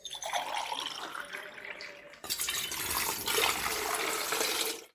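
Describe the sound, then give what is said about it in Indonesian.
Drinking water is poured in a steady, rushing splash. The stream turns louder and brighter about halfway through, then cuts off abruptly at the end, with no voices. “Ya sudah, kita minum air dulu.”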